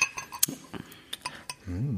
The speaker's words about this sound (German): Da schenke ich mir jetzt auch gleich ein Schlücklein ein.